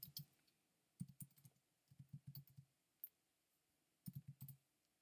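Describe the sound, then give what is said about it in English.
Someone types a name on a computer keyboard, producing quiet clusters of crisp key clicks separated by short pauses. “I'm going to go and type in his name.”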